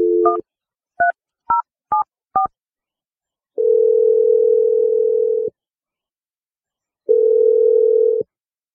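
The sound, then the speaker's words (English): Five short touch-tone beeps of a phone dialing a roommate's number, then two long steady tones separated by a pause, clear and alone with no voices. “I'm going to dial your roommate Lily's number and let you make your call.”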